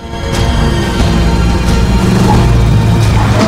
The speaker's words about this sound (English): Army vans zoom round the corner.